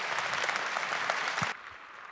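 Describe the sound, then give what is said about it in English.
Audience applause welcoming a speaker who presents a satellite ground-station project, a dense burst of clapping lasting about a second and a half before cutting off abruptly to quiet. “Give us a warm welcome for Nikos with SatNox.”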